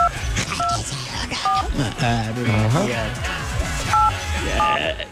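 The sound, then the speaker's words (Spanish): Telephone keypad dialing tones: a few short dual-pitched beeps at uneven intervals, with people talking over and between them. “Voy a marcar.”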